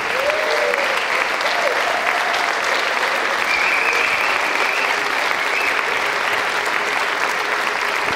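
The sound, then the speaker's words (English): Audience applause welcomes a guest speaker to the pulpit at a church service, dense continuous clapping from many hands that holds a steady, loud level for the whole stretch. “Would you just put your hands together and welcome Paul Martini.”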